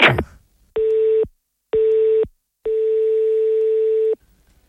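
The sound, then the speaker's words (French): A telephone rings unanswered: three steady buzzing tones, the first two short and the third much longer, separated by silence after a brief burst of noise at the start. “Il va pas décrocher l'Ivrogne, hein ?”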